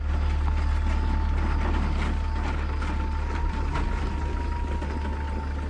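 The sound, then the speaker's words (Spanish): A jeep drives along a dirt road at night, its engine a steady, low, continuous rumble with faint rattling, constant in loudness throughout. “El jeep de Sharon avanza por un camino de tierra en medio de la nada.”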